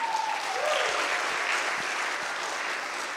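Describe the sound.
Audience applause greets a speaker walking up to give a talk. The clapping is dense and steady, holding at an even loudness for the whole stretch.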